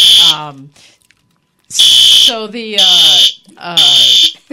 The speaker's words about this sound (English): Well, that, okay, sorry, folks, that's the fire alarm thing's going off, so we think it's just a test.